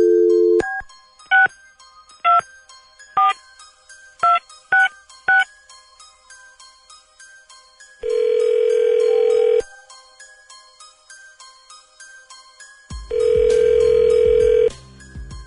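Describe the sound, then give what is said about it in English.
A phone number being dialed at random: a short dial tone, then a string of touch-tone keypad beeps, followed by two long ringback tones separated by a pause; no voices. “Dialing at random.”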